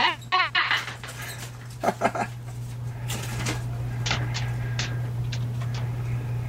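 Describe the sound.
Deep barks from a dog in a scene from the film The 'Burbs: a few harmonic bursts early on, then quieter taps and clicks over a steady low hum.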